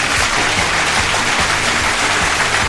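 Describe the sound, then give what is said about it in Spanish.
An audience gives a round of applause, a dense, steady wash of clapping that holds at an even level for nearly three seconds and then cuts off abruptly at the end. “Un aplauso, se merecen un aplauso todos ustedes.”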